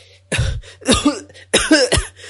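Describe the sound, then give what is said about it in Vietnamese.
Harsh, violent coughing from an angry person coughing up blood, several rough, loud bursts in quick succession with short gasps between them and no speech. “Kiều Cố nổi giận, ho dữ dội, thậm chí là ho cả ra máu nữa.”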